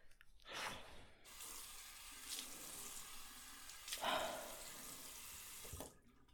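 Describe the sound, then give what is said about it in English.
Tap water runs steadily into a sink while someone washes their face, a continuous hissing flow broken by a few louder splashes, with a stronger burst of splashing past the middle and the water cutting off at the end. “Just I just need to wash my face.”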